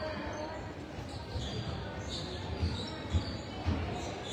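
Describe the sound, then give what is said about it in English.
Basketball dribbled up top during a women's game, heard as a few dull low thumps in an even rhythm under steady crowd noise in the gym. “She's gonna dribble up top.”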